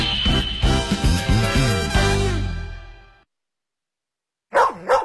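A dog barks in a loud run of several short, resonant barks that trail off into silence. After a pause, another brief burst of sound follows.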